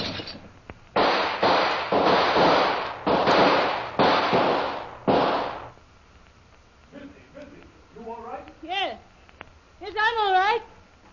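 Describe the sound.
Gunshots fired through a window: a run of loud, rough, crackling bursts, several in quick succession, followed after a short pause by people's voices rising and crying out.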